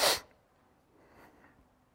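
A single sharp, loud sneeze from allergies bursts out at the very start, then gives way to a faint, quiet hush.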